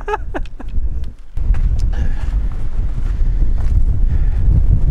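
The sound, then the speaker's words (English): Strong wind whipping through on a wintry climb near a mountain summit, buffeting the microphone with a loud, continuous low roar that swells and gusts throughout. “Wind is still certainly whipping through, but we're gonna make it.”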